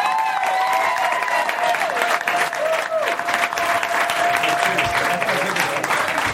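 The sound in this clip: A San Diego live comedy show audience applauds as a guest comes on, with dense, sustained clapping and some cheering throughout. A man talks over the noise.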